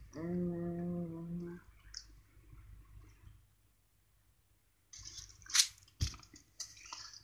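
Biting into a Lindt chocolate Easter bunny, with a few crisp snaps and crunches near the end after a long quiet stretch.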